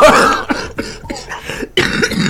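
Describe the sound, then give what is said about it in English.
A person coughs in a rapid, rough series of loud hacking bursts, with short breaks between coughs and a final strong burst near the end. “You see how you are bringing out my cough”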